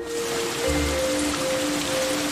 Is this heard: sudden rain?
yes